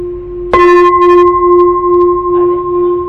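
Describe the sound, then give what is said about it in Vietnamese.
A Buddhist temple bell rings out with a single sharp strike, then a loud, steady low tone with bright overtones that sustains to the end, fading only slightly. “Chuông cũng vậy, 3 tiếng. 3 lần thỉnh về với Phật.”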